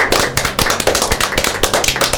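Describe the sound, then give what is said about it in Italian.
A small group claps after an improvised children's story performance. The many sharp, distinct hand claps come in a quick, uneven patter at a fairly loud level. “E allora, su questa bellissima storia, un grande applauso, perché questa storia l'hanno inventata tutta loro senza avere un copione.”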